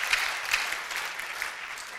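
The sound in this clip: Audience applause, soft and continuous, fills about two seconds as a fairly even patter of clapping with a few slightly stronger bursts.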